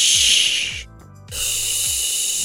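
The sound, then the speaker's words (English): A person exhales on a sustained 'shh' hiss during a singing breathing exercise: a loud, steady, breathy stream that breaks off briefly near the middle, then resumes and holds to the end. “Using that breath that you've got without actually taking a deep breath in, just exhale on a shh.”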